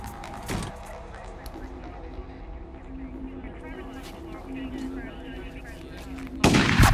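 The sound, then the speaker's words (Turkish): Gunfire in a video game, with a sharp shot near the start and a louder burst near the end over a constant rumbling game background, while people talk throughout. “Silah sesi geldi.”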